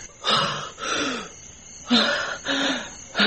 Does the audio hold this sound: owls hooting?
no